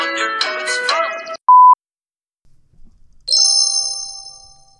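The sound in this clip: A phone signals an incoming call: after a brief melodic passage comes a single sharp beep, then a pause, then a loud, bright chiming ring that slowly fades.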